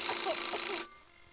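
A telephone ringing: a single burst of a high, buzzing bell lasting under a second, then cutting off to near silence.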